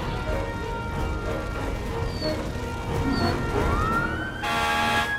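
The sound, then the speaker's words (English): Siren of a fire truck pulling up to a burning seven-story block sweeps upward in pitch and then holds a loud wail over a heavy, constant engine and traffic rumble. “Outside, fire truck 55 pulls up.”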